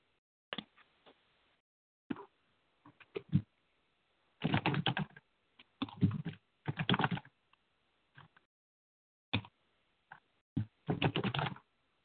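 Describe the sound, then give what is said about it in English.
Typing on a computer keyboard: faint, irregular bursts of quick key clicks separated by short pauses, some runs longer and denser than others, with no talk. “Can you see this that I just typed?”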